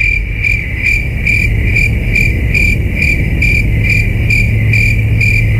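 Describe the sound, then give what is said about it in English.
Crickets chirping in a loud, steady, rhythmic pulse: high trilling bursts repeat every half second or so over a constant low hum, with no voices. “Is the answer crickets?”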